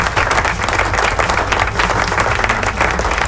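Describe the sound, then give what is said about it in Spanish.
Applause played as a sound effect, many hands clapping in a dense, loud, steady roar that holds without pause from start to finish. “Aplausos, ¿dónde están los aplausos? Ahí están los aplausos, suelta los aplausos, ahí están.”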